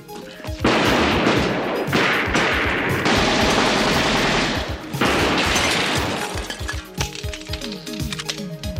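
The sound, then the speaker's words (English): Rapid machine-gun fire in several loud, sustained bursts with brief gaps between them, followed by scattered sharp impacts and clatter as the shooting dies down. “These guys are serious. I hate machine guns.”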